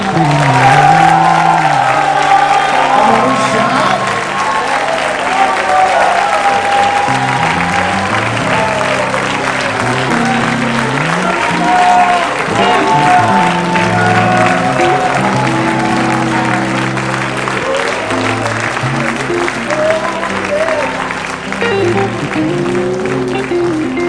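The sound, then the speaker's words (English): A church audience claps and shouts praise, with loud, sustained clapping and raised voices over steady tones that continue for about twenty-four seconds. “Let out an explosive praise. Will you do it? Clap your hands and shout.”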